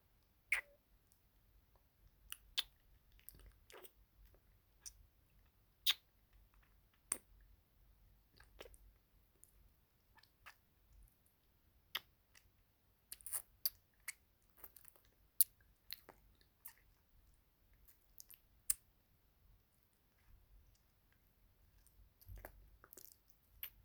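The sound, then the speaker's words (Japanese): Wet mouth sounds of licking salt off a face in an ASMR roleplay: many soft, scattered clicks and smacks with quiet pauses between them, and no talking. “あ、お顔に私のお塩が。失礼します。舐めさせていただきますね。”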